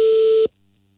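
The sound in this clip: A telephone call tone sounds on an unanswered call: a single loud, steady, even-pitched beep lasting about half a second, then cut off abruptly, leaving near silence.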